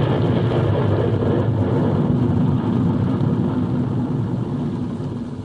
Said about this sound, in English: You are on the launching pad at Cape Canaveral. Press B to blast off. Oh, B to blast off. Let's see what happens. Initiating startup sequence.